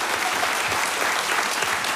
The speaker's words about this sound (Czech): Takhle vám tleská Havlíčkův Brod.